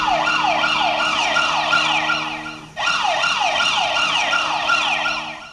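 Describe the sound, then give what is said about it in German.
Earthquake monitoring alarm in Naples, sounding when many small tremors exceed set values. A loud electronic signal of rapid, repeated falling pitch sweeps over steady low tones cuts out briefly midway, then starts again. “So klingt es, wenn die vielen kleinen Erdbeben, die sie in Neapel messen, bestimmte Werte übersteigen.”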